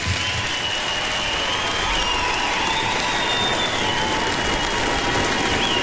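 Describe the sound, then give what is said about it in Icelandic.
Loud, continuous audience applause mixed with cheering fills a Freddie Mercury tribute concert in Silfurberg hall at Harpa. A dense, unbroken wash of clapping holds a steady level throughout. “Sakkal Evrópi gefur þessu listafólki dundrandi lófatak.”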